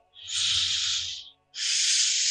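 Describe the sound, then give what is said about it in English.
A cat breathing hard right into a microphone: two long, loud, hissy breaths separated by a short pause, the second cut off at the end. “Someone is breathing very hard. Sorry. Kitty, um, Kitty microphone.”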